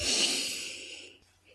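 A deep, airy inhale is drawn while the shoulders roll upward. The soft breath is loudest at the start and fades away after about a second.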